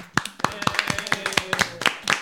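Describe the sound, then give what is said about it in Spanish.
A small group claps for a winner drawn from paper slips, producing many sharp, separate claps in an uneven rhythm with voices running beneath them. “Aplaudimos todos.”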